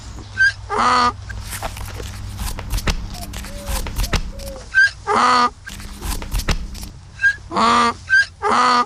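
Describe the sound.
Donkey braying as the animal is shown off as having learned to read the letters I and A. Several loud, harsh, rasping bray bursts come in short groups over a steady rustling background.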